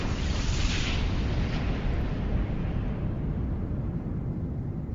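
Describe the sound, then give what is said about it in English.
A spaceship blowing apart against a force field in a video game: a loud, dense roar of noise heavy in the low end, holding steady for about five seconds and thinning slightly toward the end. “A mysterious force field destroyed your ship while en route to the planet Gymnasium.”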